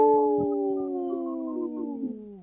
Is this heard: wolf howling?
yes